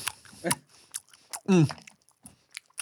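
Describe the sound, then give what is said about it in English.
A voice imitates loud open-mouth chewing: wet smacking clicks in an irregular rhythm, with a brief voiced burst in the middle. “Mouth open chewing is for sure like deal breaker for me.”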